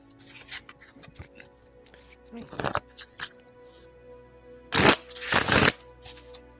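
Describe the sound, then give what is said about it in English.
Large, cumbersome cards being shuffled during a tabletop game, heard as a few soft riffling bursts, one brief and one longer, with quiet handling sounds in between. “That's a completely different feel than the rolling of the dice. Oh, a shuffle? Yeah. Still elicits a similar response, though. They're cumbersome cards, too. They're big. Mm-hmm. They're not too bad to shuffle.”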